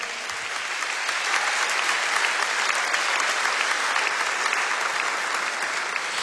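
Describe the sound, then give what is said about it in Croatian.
Applause from a concert audience cheering the backing vocalists at a live show, a dense, steady clapping that stays loud and even throughout, with no voices standing out. “A ja vas molim jedan veliki pljesak”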